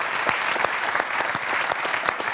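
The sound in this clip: Audience applause fills the space, thick and continuous from many hands, with a few sharper individual claps popping out of the steady clatter and no talking over it.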